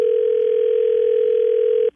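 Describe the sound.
A steady telephone dial tone hums while a three-way call is being set up. The single mid-pitched tone holds unchanged and then cuts off abruptly just before the end.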